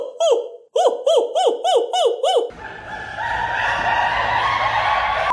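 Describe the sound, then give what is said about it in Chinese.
A human voice imitates a monkey call in a high head voice during a singing lesson: a rapid run of short whooping hoots, each rising then falling in pitch, followed by steady noise. “怎么找头声呢？我们讲了蛮多次了啊，比如说学猴子叫，”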